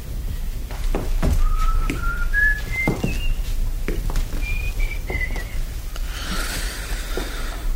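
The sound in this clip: A person whistles a short tune of clear, bright notes that step upward, pause briefly, then add a few more notes. Soft background knocks run beneath it.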